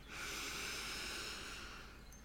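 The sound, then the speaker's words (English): A single deep breath drawn in during a guided relaxation exercise: a steady, airy hiss that lasts about two seconds on its own, then eases off at the end. “let's take a nice deep breath in”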